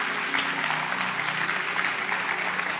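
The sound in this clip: Audience applause welcoming a speaker to the stage, a continuous, moderately quiet patter of many hands clapping with no talking over it.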